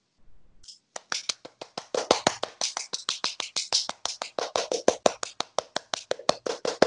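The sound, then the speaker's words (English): Sharp, evenly spaced hand claps from an audience at a stage play after a magician is introduced: many crisp claps in a quick, steady rhythm that continues to the end. “And then we all applaud.”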